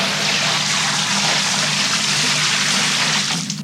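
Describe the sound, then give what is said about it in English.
Liquid is emptied from a bucket onto people's heads in a loud, continuous rushing splash that lasts several seconds and tails off slightly at the end. “You just emptied a bucket full of liquid on our heads.”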